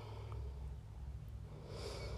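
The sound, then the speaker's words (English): A faint, slow breath is drawn in through the nose, a soft, airy rush that swells toward the end over a low, steady background hum. “Just take a deep breath.”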